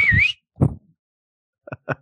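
A man whistling for his horse: one short, loud wavering whistle that dips and rises in pitch, followed by a low thump and two quick soft knocks.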